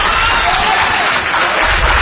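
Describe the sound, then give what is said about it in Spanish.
An audience at a town council session claps in dense, continuous applause, loud and even throughout with no pauses. “lo que ha provocado aplausos entre el público asistente, que fue expulsado en ese momento de la sala por orden del alcalde.”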